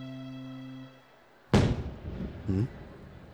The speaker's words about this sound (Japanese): この音、もしかして花火か？